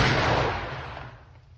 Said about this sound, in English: Shot him right through his hat there.